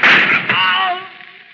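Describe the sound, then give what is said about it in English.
A gunshot in a tense standoff on an island cracks as one loud blast, then trails off into a ringing, gradually fading tail over about a second. “You didn't even give him a chance. You shot him in cold blood.”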